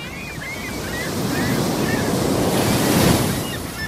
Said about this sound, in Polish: Wyjątkowo obfitujący w fale i wiatr Bałtyk, po którym pływają kitesurferzy